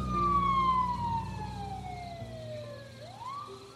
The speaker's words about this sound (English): They whooped their siren again, flashed their lights, and pulled off headed north.